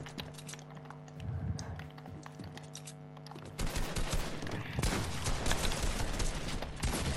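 Gunshots in a shooter video game: many dense bursts of fire, moderately loud at first and heavier and more continuous in the second half.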